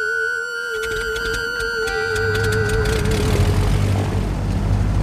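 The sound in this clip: Turboprop Vickers Viscount airliner taking off from the Falklands: a steady, high propeller whine over a droning engine tone, joined by a broad, rising rumble that grows louder and fuller as the run continues.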